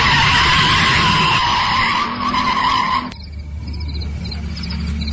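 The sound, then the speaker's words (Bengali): A car skids to a stop on a wet road, its tires letting out a sustained, loud squeal for about three seconds before cutting off abruptly into a low, steady rumble. “গাড়ি থামাও, গাড়ি থামাও।”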